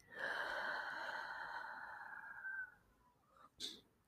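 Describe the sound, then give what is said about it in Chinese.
Breathing in and out as part of a calming exercise, heard faintly: a long, sighing exhale that fades out slowly, followed by a short, sharp inhale. “那我们先吸气，吐气。”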